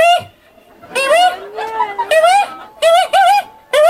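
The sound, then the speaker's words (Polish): A human voice imitates a feral pigeon's cooing, giving several throaty, warbling coos with swooping pitch in short bursts separated by brief pauses. “Będzie gołąb miejski.”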